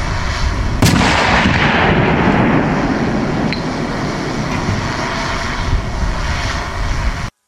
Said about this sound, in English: The Paladin version of the U.S. Army's self-propelled howitzers was introduced into the U.S. Army in 1992.